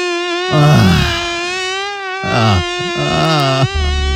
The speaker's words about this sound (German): Ein wahres Prachtexemplar da gestern Nacht bei uns im Schlafzimmer. Ich werde es mir heute mal nochmal angucken. Heute Nachmittag, ja, denn die Mücke hängt weiterhin bei uns an der Wand fest.